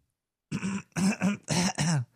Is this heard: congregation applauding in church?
no